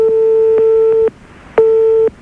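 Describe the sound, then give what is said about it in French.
Telephone ringback tone from an unanswered call: a steady mid-pitched ring sounds for about a second, pauses, then rings again more briefly before stopping, with no voices. “On essaie de t'appeler là pour l'instant, Grégory, ça sonne dans le vide.”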